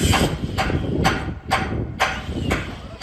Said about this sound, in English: hammering home the resilience of Ukrainians, literally, workers began repairs to the roof of the Pechersk Lavru Monastery in Kyiv after it was badly damaged in a major attack by Russia on Monday.